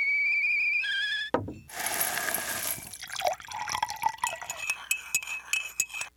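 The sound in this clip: Nescafe coffee being poured, preceded by two short tonal notes: a steady splashing pour, then light clinks and scattered drips.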